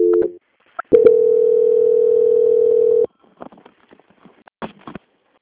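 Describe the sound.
A telephone line tone plays while a call is being transferred: a short tone and a brief blip, then a steady single-pitched tone lasting about two seconds, followed by faint scattered clicks on the line.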